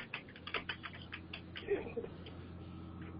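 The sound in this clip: Quick, uneven clicking of keys as a message is typed on a computer keyboard. The keystrokes are brisk for about two seconds, then trail off into quiet.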